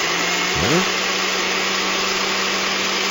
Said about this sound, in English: That's blending up there.